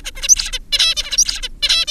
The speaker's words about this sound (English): some of the stereotypy of the adult song, which again sounds like this.